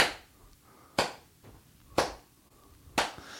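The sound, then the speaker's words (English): Handclaps from people clapping along during a church mass: four sharp, evenly spaced claps, about one per second, moderately loud over a quiet background. “people were getting into it, they were clapping”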